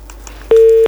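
A telephone busy tone after a dropped call: one loud, steady, mid-pitched beep sounds abruptly after a faint, quiet start and cuts off just before the end.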